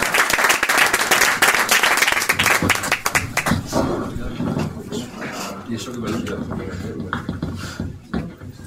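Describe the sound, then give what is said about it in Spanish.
Audience applause for a speaker at a public economics talk: dense, loud clapping fills the first few seconds, then thins and fades into quieter room sound with what seems to be a voice. “Pido para él un aplauso”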